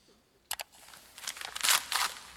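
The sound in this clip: A child tears open a wrapped Christmas present, with a couple of quick paper rips followed by a longer, fairly faint run of crinkling and tearing.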